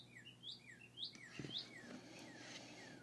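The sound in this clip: A bird calls outside a window with a series of faint, high chirps and short whistled notes, repeated many times in an uneven rhythm.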